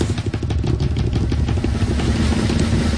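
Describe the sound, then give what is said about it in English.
A drum roll sound effect played before a prize drawing: a loud, dense, rapid rattle of strikes that runs continuously at an even level for the whole stretch, with no pause and no voices. “Drum roll, please.”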